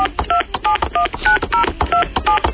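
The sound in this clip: A telephone number being dialed for a prank call: a quick series of bright, steady touch-tone beeps in an uneven rhythm, with short clicks and noise between the tones and no talk.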